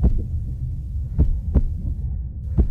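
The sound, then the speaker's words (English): A nurse's heartbeat after being shouted at, threatened and grabbed: a few dull, low thumps at uneven intervals over a constant throbbing rumble, with no voices. “This is the sound of a nurse's heart rate”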